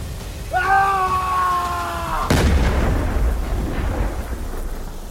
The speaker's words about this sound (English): The shot blew the ghoul in half